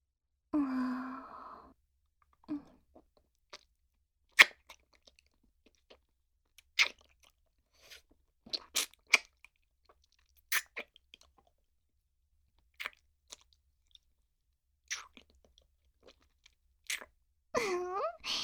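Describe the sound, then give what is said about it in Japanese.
A hard candy is crunched and eaten, with sharp, scattered crunches and chewing clicks over near silence. A breathy sigh comes at the start, and vocal sounds are heard at the end. “自分へのご褒美に飴舐めちゃおうっと。”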